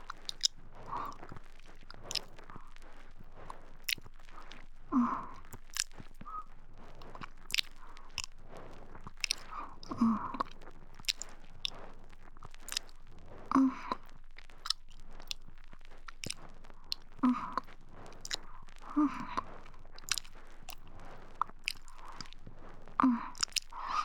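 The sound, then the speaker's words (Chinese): Close mouth sounds of biting and chewing an earlobe: soft, wet smacks and crunchy bites recurring every few seconds in a quiet, steady rhythm, with no talking. “我现在才发现你的耳垂好多肉哦，感觉一定很好吃。”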